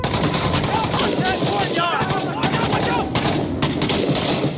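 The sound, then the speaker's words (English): Loud automatic gunfire in a tactical shooter video game lays down suppressive fire, with dense, rapid bursts that continue almost without a break and overlap into a thick, crackling barrage. “Suppressing fire! That was the go command. One tap issues orders to your team based on what you're pointing at. Pin enemies in place with suppressive fire while you flank.”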